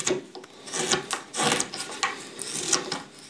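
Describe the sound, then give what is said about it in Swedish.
A knife carves the wooden mouthpiece of a horn in rough, scraping strokes, an uneven series of rasping cuts of varying loudness with brief pauses between them. “Jag ska bara tälja fram lite grovt ytterformen på munstycket så ska man kunna provspela den här.”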